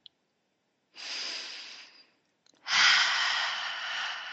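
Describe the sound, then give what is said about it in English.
A great big deep breath is drawn in slowly and audibly, then after a brief pause a louder, longer breathy exhale follows, with no talking. “So just take a great big deep breath.”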